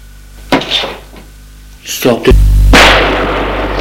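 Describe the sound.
A single gunshot: a sharp, loud blast that sweeps into a long, noisy, rumbling tail.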